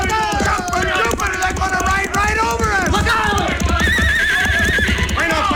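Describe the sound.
Horses gallop and whinny in a charge along a town street, steady hoofbeats mixed with loud repeated neighing and men's shouts, the whole scene dense and loud throughout.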